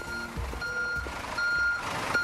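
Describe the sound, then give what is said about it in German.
Reversing beeps from a tour bus stopped in Berlin traffic, a few evenly spaced high electronic beeps repeating over a low engine rumble and street noise. “Ein Reisebus, der den Verkehr blockiert und einfach anhält, ist in Berlin ziemlich normal.”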